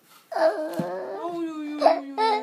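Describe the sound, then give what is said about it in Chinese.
A young child bursts into crying, a wavering, high wail that breaks off and restarts a few times over a couple of seconds. “你说看这个姐姐一下就哭了”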